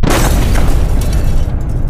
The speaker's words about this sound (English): The hull rang like a gong, and the sub heeled over as the first depth charge went off, throwing him off of his feet.